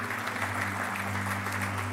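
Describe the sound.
An audience claps steadily, a dense, faint wash of many hands over a low constant hum, lasting about two seconds without a break.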